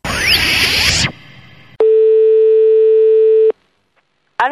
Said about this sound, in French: On va essayer donc d'appeler une de tes amies.